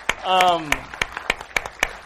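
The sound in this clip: Scattered hand claps come from a church audience applauding a pastor and a visiting audience. About eight separate sharp claps land at an uneven rhythm over two seconds, and a voice calls out briefly near the start.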